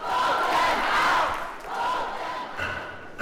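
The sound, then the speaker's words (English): Students chant in unison inside a legislative chamber, a crowd of voices rising and falling in a few loud, sustained swells with no other sounds standing out. “When House Speaker Tim Moore recognized the group, they stood in unison and chanted, "Vote them out."”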